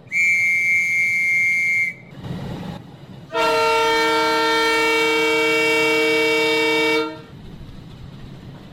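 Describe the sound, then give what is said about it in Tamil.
Train horn as a train sets off toward Jaffna in Sri Lanka on a trial run. It gives two long blasts: a thin, high single tone, then after a short pause a fuller, rich chord that lasts several seconds. “நூற்றாண்டு கால பகுதிக்கு பின்னர் யாழ்ப்பாணத்தை நோக்கி இந்த ரயில் வண்டி தனது பரிச்சார்த்த பயணத்தை ஆரம்பிக்கின்றது.”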